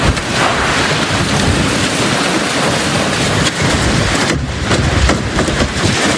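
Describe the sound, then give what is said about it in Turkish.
Heavy rain pours and thunder rumbles through a storm with strong winds in New York. The roar is loud and continuous and stays dense throughout, with no voices. “Fırtına önüne neyi kattıysa aldı götürdü. İnsanlar yollarda yürümekte zorlandı.”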